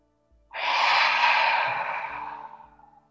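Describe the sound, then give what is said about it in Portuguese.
A deep exhale with the belly pulled in to push out all the air: one long, breathy rush of breath lasting about two and a half seconds, strong at first and then fading out. “puxando a barriga para dentro, para que saia todo, todo, todo o ar. Todo, todo, todo que tiver dentro.”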